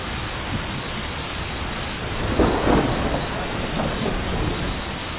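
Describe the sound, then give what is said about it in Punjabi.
Heavy rain and thunder from the story of Noah's flood: a steady, dense hiss of downpour, with a deeper rumble swelling briefly near the middle before settling back into the rain. “ਤੇ ਖੁਦਾ ਨੇ ਬੂਹਾ ਬੰਦ ਕਰ ਦਿੱਤਾ ਫਿਰ ਵੱਡਾ ਮੀਂਹ ਆਇਆ”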